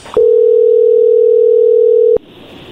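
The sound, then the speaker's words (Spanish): A telephone tone sounds on a call being placed to Colombia: a single steady, mid-pitched tone holds for about two seconds, then cuts off abruptly, leaving faint line noise. “Vamos a llamarle a Colombia”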